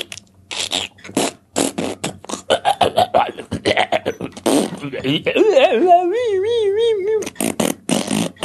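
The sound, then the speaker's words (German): A long burp forced up from air left in the stomach, a rough, drawn-out croak with a wavering tone, following a stretch of short clicks and voice noises. “Ich fange mit Rülpsen an, weil ich hatte noch Luft im Bauch.”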